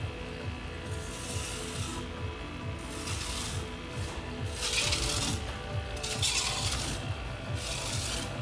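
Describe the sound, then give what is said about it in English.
A rotating-drum fish scaler with diamond blades brushes scales off a fish, giving a steady, rough rubbing and rasping noise that continues without a break and with no voices. “That's all the scales just being brushed off. So there's just that rotating drum with the diamond blades on it, kind of takes those scales off real nice and easy.”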